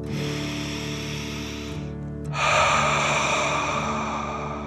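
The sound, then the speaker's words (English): A deep breath drawn in and then blown out through the mouth, the breathy exhale louder and rougher than the quieter inhale that comes before it. “deep dragon breath in and out.”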